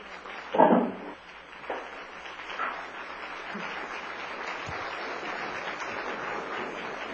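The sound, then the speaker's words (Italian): Applause as a speaker is invited to the podium, beginning with one louder burst and then settling into a steady, even wash of clapping from the audience. “Vorrei invitare il signor LaRouche sul podio. Applausi.”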